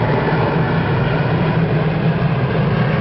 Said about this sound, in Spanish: pasa el avión.